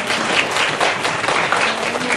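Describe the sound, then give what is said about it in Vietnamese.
Steady round of applause from an audience of young students at a teaching session, dense clapping sustained evenly throughout without pause, no voices above it. “xin cho một tràng pháo tay nữa.”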